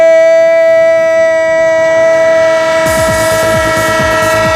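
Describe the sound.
A train horn sounds as a loud, sustained chord in a sports radio jingle, and a rhythmic wheel clatter joins in partway through beneath the held tones.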